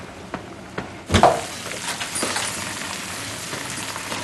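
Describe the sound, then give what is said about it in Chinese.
Food sizzling as a meal is cooked in a kitchen: a sharp burst as it hits the hot pan, then a steady, soft crackling hiss. “你咋还做饭啊？”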